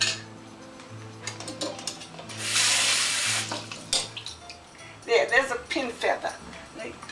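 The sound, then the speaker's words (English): A running kitchen tap as chicken drumsticks are rinsed, a brief gush of water lasting about a second, with talking before and after it. “Give a quick rinse, get my plate,”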